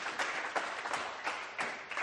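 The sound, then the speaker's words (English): Audience applause for a young reciter of Bible verses, a dense, steady patter of clapping at moderate loudness with a few brief louder surges and no talk. “Please let's give up claps for Ryan.”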